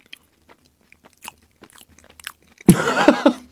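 Biting into a crisp wafer filled with clams simmered in soy sauce: faint scattered mouth clicks at first, then a loud crunchy bite and chewing in the final second.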